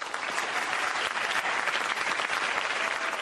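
Warm audience applause welcoming a science popularizer to the stage, a dense, steady wash of clapping at an even level from start to finish with no voices over it.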